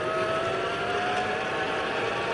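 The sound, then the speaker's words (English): Steady motor drone from a motorized bicycle, a bike fitted with a small motor, heard while it is ridden on a commute. The hum is continuous and fairly faint, with a thin whine running through it. “That's not a real bike. Okay, it's a bike with a motor on it, but it gives me some oomph up the hills.”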